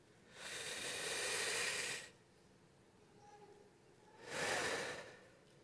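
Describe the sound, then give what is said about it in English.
Two long, deep breaths taken slowly before prayer, each a broad, airy hiss swelling and fading. The first is longer than the second, with a quiet pause between them. “when I'm doing this, I like to take a few deep breaths, to literally”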